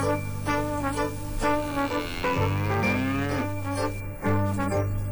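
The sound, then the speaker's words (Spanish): A cow mooing inside a radio jingle. Drawn-out, lowing harmonic tones blend with steady musical notes, moderately loud throughout. “uno entra riéndose, porque aparte la canción de la vaca mu, pero y atrás la cortina de ella que entra como una vaca”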